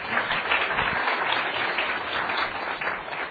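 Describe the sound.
A class audience applauds a guest speaker, steady and dense clapping that continues without a break for about three seconds with no talk over it.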